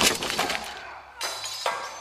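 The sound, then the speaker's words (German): A body crashes into a shelf full of scrolls: a burst of clattering impact that fades, followed by two further sharp knocks and rustling. No voices are heard. “Nadul blieb mit dem Schuhwerk an der Klinge des Untoten hängen, verlor das Gleichgewicht und krachte in ein mit Schriftrollen befülltes Regal.”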